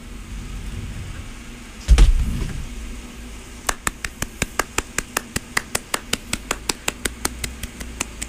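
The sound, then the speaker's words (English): One person acts out a one-man standing ovation: a dull thump comes first, then a single pair of hands claps alone, many sharp, evenly spaced claps at a brisk, steady rhythm. “This is my impression of a one-man audience giving a standing ovation.”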